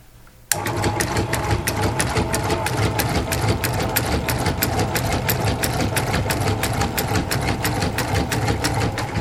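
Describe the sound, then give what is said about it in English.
A small motorized contraption of screws, a bicycle chain and a little motor starts up and drives a chewing skull, producing a steady, fast mechanical whir with evenly spaced clicks throughout. “This looks like something right out of one of these 1930s or 1940 movies. Yeah, you've got a bunch of screws and a bicycle chain going around and a little motor, and then this this little skull down here is just chewing”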